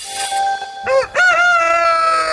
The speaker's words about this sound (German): Das ist ein glücklich lebender Hahn.